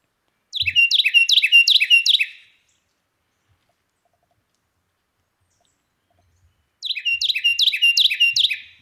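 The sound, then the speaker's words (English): Carolina wren song: two loud bursts of rapid, repeated whistled phrases, each lasting under two seconds, separated by a long silence. “we've got the beautiful sound of the Carolina wren, courtesy of Jacob and Cornell University”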